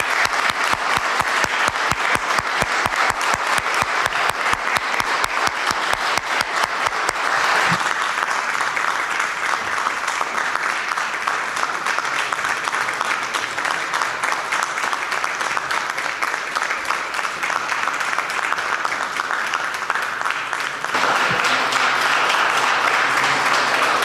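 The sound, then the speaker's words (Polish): Sustained applause for a second-place high school team from Lublin at a school tournament. Rhythmic clapping during the first several seconds gives way to a dense, steady wash of clapping that stays loud throughout. “również wielkimi brawami trzeba i musimy nagrodzić oczywiście 21. Liceum Ogólnokształcące w Lublinie”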